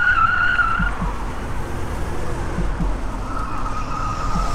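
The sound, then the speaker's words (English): Roar of a stolen car speeding at 85 to 90 mph and driving erratically around traffic during a police pursuit, a dense, steady road and engine rush with a wavering siren-like tone near the start and again at the end. “The stolen vehicle was now about 1 mile north of the Dundas exit, traveling at speeds of 85 to 90 miles per hour, driving erratically, taking the median, and going around vehicles”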